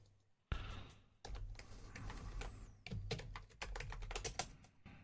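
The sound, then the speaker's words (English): Typing on a Mac computer keyboard, many quiet, rapid key clicks in uneven bursts after a brief hush at the start. “I'll type it out.”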